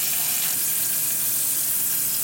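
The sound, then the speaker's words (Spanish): Butter sizzles and burns in a frying pan, a steady, even hiss of fine crackling without pause or voices. “lo que se acaba de vivir ahorita es que se, quemó tantita mantequilla aquí en un pan”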